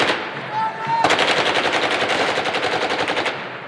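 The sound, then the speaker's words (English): Hundreds of young men fire machine guns into the air at a funeral in Baghdad. Loud, rapid automatic fire breaks out abruptly after about a second and keeps rattling in dense, overlapping bursts. “Hundreds of young men fire machine guns into the air”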